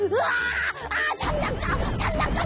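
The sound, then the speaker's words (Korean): A child screams and cries in a tantrum over wanting a toy: loud, high, sustained shrieks that waver in pitch, then break into rougher wailing sobs. “장난감! 악을 쓰면서 울어! 사줘! 소리 질러!”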